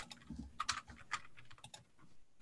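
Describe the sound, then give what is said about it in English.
Faint typing on a computer keyboard during an online tabletop role-playing game session: a short run of soft, irregular key clicks with no talk. “I'll type it in chat.”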